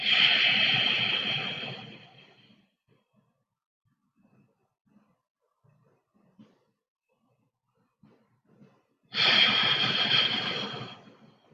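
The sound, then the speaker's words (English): Slow, deep breathing at the start of a calming centering exercise: two long, airy breaths separated by several seconds of near silence. “We're going to begin by taking some long, slow, deep breaths in order to center ourselves.”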